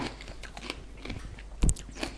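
Biting and chewing raw green bell pepper: one crisp, sharp crunch stands out amid soft, faint chewing noises, with no talk over it.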